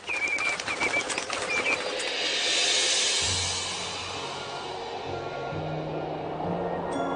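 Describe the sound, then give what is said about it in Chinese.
Common redshanks, migratory birds that fly from Russia to winter at a wetland, give a few short, high whistled calls early on, then a broad, steady rushing wash of sound carries through the rest. “这些红脚鹬从俄罗斯飞过来，到这里过冬。”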